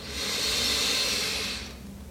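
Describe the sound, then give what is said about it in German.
A deep breath taken during a guided relaxation exercise: a single long, airy, hissing breath lasting over a second, steady and soft, then fading out into near quiet. “Wir nehmen jetzt alle zusammen einen tiefen Atemzug und atmen ein”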